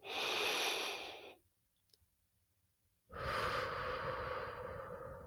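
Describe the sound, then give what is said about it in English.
A long, deep breath is drawn in with a broad, airy rush. Near-silence follows for a moment, then another long, steady breath of similar loudness. “can we just take a deep breath and pause? Yeah, let's do that. Breathe in.”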